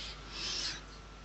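A pen scratching on paper during a game night: a faint, continuous soft rasp that swells briefly in the middle and then settles, with no talking.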